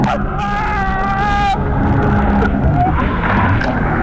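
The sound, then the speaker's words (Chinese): A jet ski's engine roars through a sharp high-speed turn on the sea, with a loud continuous rush of motor and spray; a high whining tone rides over it for the first second and a half, then the broad churning noise carries on. “摩托艇一个急转弯，由于速度太快，离心力很大，记者瞬间失去平衡，被甩入水中。”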